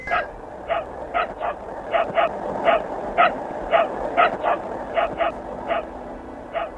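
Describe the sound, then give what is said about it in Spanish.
Dog barking inside a spacecraft, Sputnik 2: many short, high-pitched yips and barks in an uneven rhythm, with some whimpering tone, fairly loud and with no voices. “Es Laika ladrando desde algún lugar dentro del Sputnik 2.”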